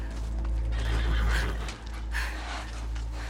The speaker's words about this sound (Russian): Призрачные лошади из белого дыма, везущие за собой черную карету смерти, останавливаются рядом с ней.